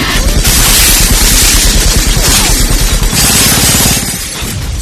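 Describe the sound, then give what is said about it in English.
Heavy chain gun fire from an action scene in The Matrix: a loud, dense barrage of rapid shots with crashing, shattering debris, running continuously before easing slightly at the end. “A little Matrix chain gun action for you while we the bullets while we leave. Flying. Yeah, the bullets are flying”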